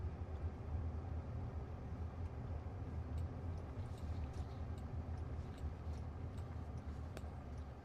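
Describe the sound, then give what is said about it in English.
A quiet, even low rumble of road and cabin noise inside a moving Waymo driverless car, with faint ticks scattered over the steady hum and no voices. “Yeah, so we're in this Waymo. You know, it drives decently.”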